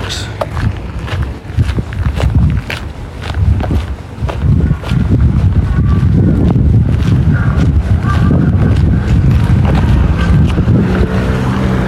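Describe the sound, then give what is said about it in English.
Light breeze buffeting the microphone on a cold day: a steady low rumble of wind noise that fills the whole clip, rough and continuous with no clear pauses. “Small breeze.”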